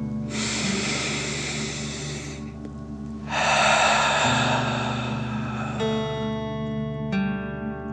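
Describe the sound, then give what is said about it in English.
Two long, deep breaths during a guided breathing exercise: a slow inhale, then a forceful exhale through the mouth like breathing fire. Both are airy and breathy over soft, sustained musical tones. “out through your mouth, pretending you are breathing fire. Ready? Okay. Deep breath in and out.”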